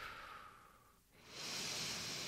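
A deep breath out, a soft airy rush that swells in the second half and holds steady, faint and alone.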